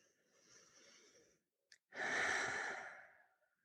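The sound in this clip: Slow, deliberate breathing during a relaxation exercise: a soft, airy breath, a brief pause, then a longer, louder sighing breath, all faint.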